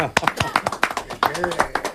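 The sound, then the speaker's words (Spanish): Group clapping from a young vocal ensemble, a quick, even run of sharp claps at a steady beat with voices talking over it. “Vamos muy a hacerle un aplauso a nosotros.”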